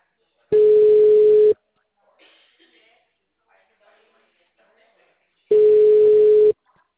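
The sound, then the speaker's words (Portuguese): A telephone ringback tone sounds while a call is being placed: two long, steady, low buzzing tones about a second each, separated by a few seconds of near silence. “Tô ligando pra ela aqui agora.”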